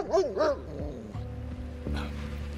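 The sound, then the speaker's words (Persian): A police detection dog gives two sharp, high barks in quick succession, followed by quieter, lower sounds. “ریک سگ تشخیصه، هشدارش باعث ایجاد شک معقول برای جستجو میشه”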